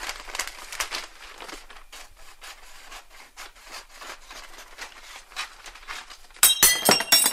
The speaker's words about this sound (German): Ich tollpatsch die Tasse.